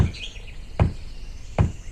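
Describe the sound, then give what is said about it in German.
Knocking on a bandit camp gate in a video game, tapping out a secret knock: a few dull, evenly spaced thuds separated by short quiet gaps. “Ihr habt genau 5 Sekunden meine Aufmerksamkeit, um das geheime Klopfzeichen korrekt zu klopfen.”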